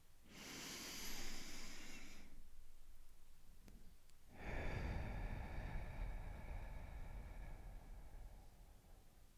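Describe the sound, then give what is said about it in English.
A deep breath in through the nose and out through the mouth: a hissing inhale of about two seconds, a pause of quiet, then a longer, louder breathy exhale that slowly fades. “Let's take a deep breath in through our noses and out through our mouth.”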